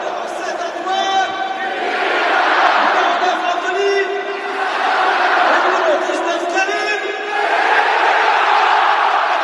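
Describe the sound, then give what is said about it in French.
A roaring football stadium crowd in Lyon cheers and chants for the French national team as France leads Finland 2-0. Many voices chant in unison and the loud noise swells in repeated waves. “Un stade en folie devant le spectacle offert par les Bleus qui avaient déjà accueilli bruyamment les joueurs et particulièrement les deux enfants du pays.”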